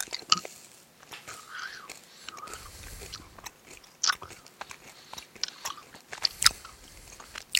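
Biting and chewing of a watermelon-flavoured snack: many crisp crunches at uneven intervals, with a few sharper, louder bites standing out between softer chewing.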